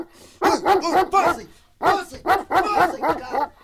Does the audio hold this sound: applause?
no